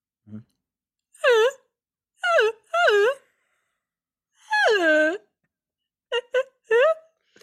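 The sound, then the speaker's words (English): A person's voice imitates a walrus in need of comfort, making a series of drawn-out groaning moans of varying length. The longest moan falls near the middle, and a few short grunts come toward the end, with silence between them. “It's kind of like a walrus looking for a hug. You know, a walrus that needs a little comforting is kind of how I describe it.”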